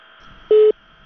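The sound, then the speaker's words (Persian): A telephone busy tone sounds after a radio listener's call has dropped: a single short, steady mid-pitched beep over a faint line hum. “فکر میکنم مشکل فنی پیش آمد و تماس ای شنونده ما با ما قطع شد.”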